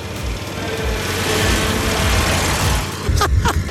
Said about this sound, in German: Handbremse und dann geben wir Gas.